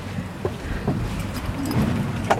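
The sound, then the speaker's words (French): A border police boat leaves the port of Mamoudzou, its engine a steady low rumble under gusting wind noise, with a few faint knocks and splashes. “Donc là, on quitte le port de Mamoudzou, on embarque avec vous à bord du bateau de la police aux frontières.”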